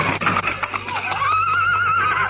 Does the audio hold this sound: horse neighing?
yes